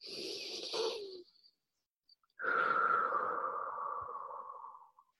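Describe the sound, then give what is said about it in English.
A deep breath drawn in during a guided group meditation, heard as a soft airy rush. After a short pause comes a longer, steadier breathy sound with a faint tone that slowly fades. “let's take 3 deep breaths to really expand our soul and our spirit. Deep breath in.”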